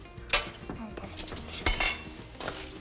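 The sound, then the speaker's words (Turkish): Metal oven baking tray being brought over and set down in a home kitchen while a zucchini bake is prepared, giving a few clattering knocks, with two louder metallic clanks standing out over low background noise. “Şimdi ben sana buradan fırın tepsimizi getireyim ve fırın tepsimize döktükten sonra güzelce yerleştirelim.”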